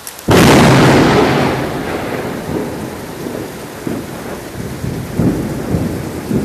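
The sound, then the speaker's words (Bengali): Thunder during a thunderstorm opens with a sudden loud crack that rolls into a long, slowly decaying rumble over steady rain. A few further low thuds and rumbles follow toward the end. “আমিও এই বজ্রপাতে একটু ভয় পেয়ে গেলাম।”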